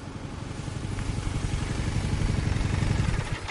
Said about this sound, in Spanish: Llega H con su moto.